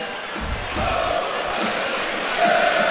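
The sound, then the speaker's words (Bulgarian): Bulgarian football fans whistling in disapproval from the stands: a dense, steady crowd roar with a few thin whistle tones briefly rising above it. “Логични са и тези освирквания от трибуните, от феновете на Ботев Пловдив”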